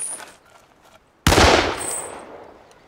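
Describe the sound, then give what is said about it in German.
One sudden, loud gunshot breaks a short quiet stretch. Its broad, harsh blast fades slowly over more than a second. “Sie hätten wirklich nicht schießen müssen.”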